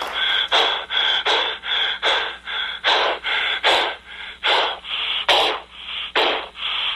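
People pant hard after a grocery-grab contest, with many quick, rhythmic gasping breaths in a loud, steady series and no talking.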